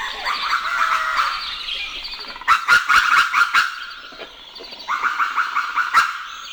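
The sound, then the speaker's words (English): Dawn birdsong at sunrise in Sonoma Valley, California: many overlapping chirps and songs throughout, with a short run of sharp taps in the middle and a few louder calls near the end. “This is what sunrise in Sonoma Valley, California sounds like.”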